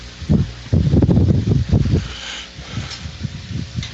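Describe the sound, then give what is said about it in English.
Wind buffeting a caller's unmuted microphone, heard as gusty, low rumbling bursts that are loudest in the first two seconds and then settle into a fainter, steady rustle. No one speaks. “well I hear someone standing in the wind.”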